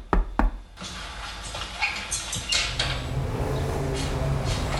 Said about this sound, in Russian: как раздался стук в дверь